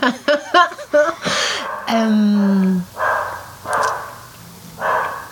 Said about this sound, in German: Das ist unser Hund.